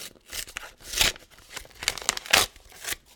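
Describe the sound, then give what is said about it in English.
Paper crinkling and ripping as a large envelope is torn open: a series of sharp, papery rustling bursts in an uneven rhythm, with no talk. “Here's the huge envelope. There's a big check in here, by the way, I think.”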